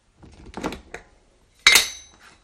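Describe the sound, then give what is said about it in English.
A lid comes off a pot of homemade mincemeat: a few soft clinks, then one sharp metallic clank that rings briefly and fades. “Do you want to take the lid off now and have a quick smell, see what the aroma's like?”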